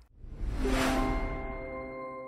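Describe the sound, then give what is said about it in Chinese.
The New York Stock Exchange and Nasdaq opening bell rung in the White House Oval Office: a rushing onset swells into a sustained metallic ring whose steady tones slowly fade, quiet, with no talking. “在白宫椭圆形办公室敲响了纽约证券交易所和纳斯特克的开市钟”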